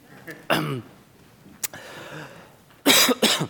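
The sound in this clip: Coughing and throat clearing during a church sermon: a rough throat clear, a quiet stretch, then two sharp, loud coughs close together at the end.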